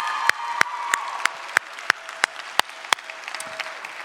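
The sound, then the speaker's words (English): An audience claps for a worship team in a steady, evenly spaced beat of sharp claps, with no cheering evident. “would you join with me in just giving a great shout of thanks to this amazing worship team for leading us this morning?”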